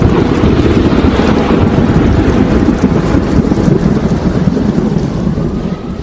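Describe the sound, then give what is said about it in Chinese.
A typhoon with heavy rainstorm produces a dense, steady roar of pouring rain and wind. It stays loud and unbroken throughout, with no distinct individual impacts. “台风就卷积着暴雨呼啸而来了”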